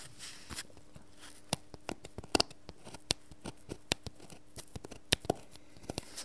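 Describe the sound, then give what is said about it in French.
Scalpel cutting wood veneer for marquetry, heard as a quiet run of sharp clicks and small scratchy ticks at an irregular pace, some a little louder than others. “C'est un scalpel. Un scalpel. Un scalpel, donc ça me permet de découper le plaquage et d'ajuster parfaitement les pièces les unes dans les autres.”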